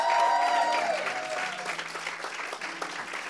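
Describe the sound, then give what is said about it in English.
A church audience claps in a dense burst of applause with some cheering, fairly faint, holding steady and then thinning slightly toward the end. “Y'all make some noise for Carlos.”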